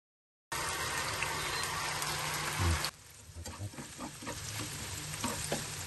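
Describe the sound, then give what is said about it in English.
Tofu sizzles as it fries in ghee and extra virgin olive oil. A loud, steady hiss starts abruptly, drops to a quieter level about halfway through, and then keeps crackling with scattered pops. “I'm gonna put some ghee. And this is some extra virgin olive oil. Cook the tofu first.”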